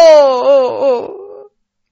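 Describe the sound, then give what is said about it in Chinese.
A single voice wails in feigned grief, a mourner pretending to weep for a dead master. It is a loud, drawn-out cry that wavers and sinks in pitch, then breaks off after about a second and a half into silence. “瞧这兄弟俩也真会演戏，眼泪是说来就来，方便得很，哭了好一阵子才收了眼泪”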